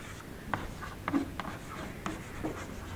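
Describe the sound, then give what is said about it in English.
A pen scratches faintly as someone draws a little diagram: a few soft, brief strokes and scrapes over a quiet, steady background. “Let me draw a little diagram and then I'll go on.”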